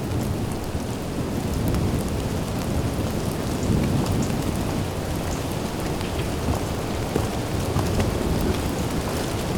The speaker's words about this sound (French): Un filet de pluie.